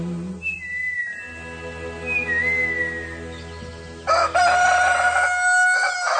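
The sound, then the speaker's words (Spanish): A rooster crows once, loud and sudden near the end, after a stretch of whistle-like tones over a low, steady hum. “Y como bien dice doña Cocorica a sus pollitos, cada mañana el señor gallo le ordena al sol que ya es hora de levantarse. Y entre el sol con sus rayos y el gallo con su canto”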